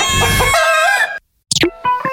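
A rooster crows loudly in one long, drawn-out, harmonically rich call. After a short silence come a few brief, sharp clucking calls.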